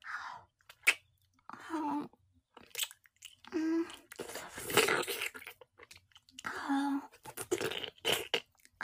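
Close-up chewing and eating of hot food: quiet, wet mouth sounds with soft crunches in several short bursts separated by pauses.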